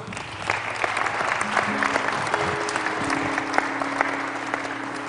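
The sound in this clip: Dense, even applause from an audience in a chapel welcomes a visiting youth praise band from Trinity Church of the Nazarene, holding steady for about five seconds.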